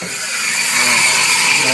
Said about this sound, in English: The Perth CBD is bustling as workers gear up for another week.